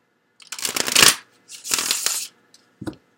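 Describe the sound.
Tarot cards are shuffled during a reading: two loud papery riffling bursts, then a few brief soft taps, with no talk.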